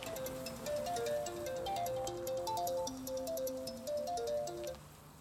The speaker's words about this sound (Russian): Звонит мобильный.